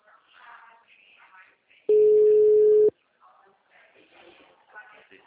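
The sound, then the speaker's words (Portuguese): Telephone busy signal from an engaged number: one steady, loud, low tone lasting about a second, with people talking quietly before and after it. “O telefone encontra-se, o número está ocupado.”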